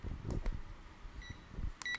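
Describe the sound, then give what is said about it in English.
Timer beeping: two short, high electronic beeps sound near the end, after some soft low knocks of handling. The whole passage is faint. “Oh, let's turn on our timer, y'all. We got to turn on our timer. That was at least 10 minutes. How do I do it? Oh, God. No, it's the beeping.”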